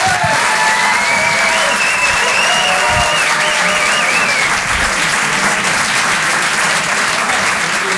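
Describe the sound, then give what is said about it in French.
An audience applauds a performer with loud, steady clapping for about eight seconds. Cheering and high whistles rise above the clapping. “Je vous demande un maximum de bruit, s'il vous plaît, également pour Antonia de Rendinger.”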